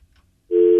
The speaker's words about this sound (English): it would appear that whoever the caller was either hung up or the call got dropped somehow, which is unfortunate.